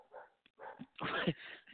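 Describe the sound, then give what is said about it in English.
A dog barking in a few short, quiet yips and barks with brief gaps between them. “this damn dog”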